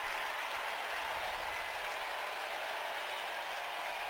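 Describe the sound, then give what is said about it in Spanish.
A crowd at a Padres postseason baseball game reacts to the first strike from Matsui's pitch with a steady, dense roar of voices that holds evenly without distinct peaks. “El lanzamiento de Matsui, el público reacciona con el primer strike.”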